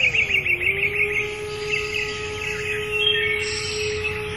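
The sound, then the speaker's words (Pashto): A golden bird sings in a fairy-tale scene, with rapid high chirps and trills that start lively and then continue more softly over a steady low sustained tone. “کله چې وروستی سر هم غوڅ شو، زرین مارغه سندره پیل کړه.”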